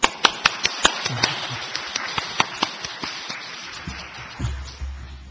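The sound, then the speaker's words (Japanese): Welcoming applause in a church for a guest speaker, heard as a run of sharp, separate claps at an even pace that gradually soften. It sounds like only a few people clapping. “それではただいまから安息の力という題でもって先生からメッセージを伺いたいと思います。改めて歓迎の拍手”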